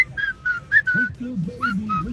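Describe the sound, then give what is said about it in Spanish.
A person whistles a tune in a few short, clear, high phrases separated by brief gaps, with a low wavering voice-like tone running beneath during the second half. “Ah, mira, también le salió. O sea, tenemos silbadores profesionales del otro lado.”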